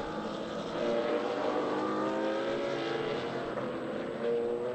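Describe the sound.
TCR touring race cars drive past in formation at Sebring, their engines blending into a steady, layered roar whose tones slowly shift. The sound stays moderately loud throughout, with no talk.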